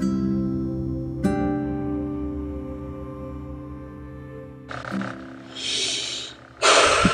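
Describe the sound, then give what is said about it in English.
A deep breath in and then out, heard as soft airy rushes of breath over a steady musical background, with the louder exhale at the end. “Deep breath in, and deep breath out.”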